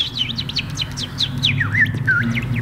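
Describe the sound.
A voice imitates a small bird chirping: many quick, high chirps follow one another in rapid succession over a low, steady background hum.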